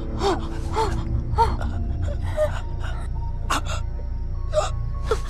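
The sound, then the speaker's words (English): A man gasps and struggles for breath after falling through broken glass onto a lawn: a series of strained, voiced gasps and sharp breathy catches at irregular intervals, loud and ragged. “He struggles to breathe.”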